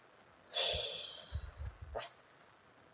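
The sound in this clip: A long, breathy exhale during a guided letting-go exercise, loud and sustained, followed by a shorter, hissing breath out, with no talk over it.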